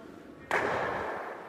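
A curling stone strikes another stone, giving one sharp, hard clack followed by a bright ringing tail that slowly fades.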